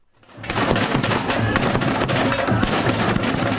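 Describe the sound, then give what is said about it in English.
A loud street protest by students, environmentalists and left-leaning activists in São Paulo during a US president's visit swells quickly into a dense, steady roar of noise with many sharp bangs and thumps. “That's the sound of students, environmentalists, and left-leaning activists.”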